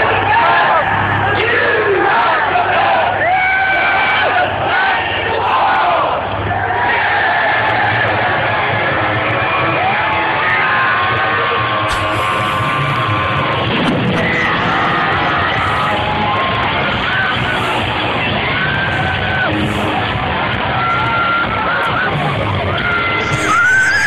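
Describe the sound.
A concert crowd screams and cheers loudly as a band comes on stage. Shouts and whoops blend into a dense, continuous roar that lasts the whole clip, with individual voices yelling through it.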